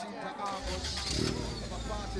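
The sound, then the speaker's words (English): A car engine starts with a low, steady rumble and pulls away in the early morning. The engine noise stays loud and fairly even to the end. “He smiles softly as he drives beyond the reaches of Pasa Pasa”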